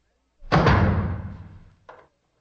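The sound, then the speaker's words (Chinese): A heavy door is shut by a guard on command: one deep thud with a long, fading rumble, then a faint short knock as it settles. “关上门，把门都关上。”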